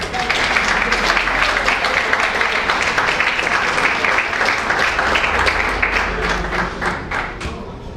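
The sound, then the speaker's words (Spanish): Audience applause at a lecture, dense sustained clapping from a crowd at steady loudness for several seconds, fading slightly toward the end. “lo recibimos con un nuevo aplauso.”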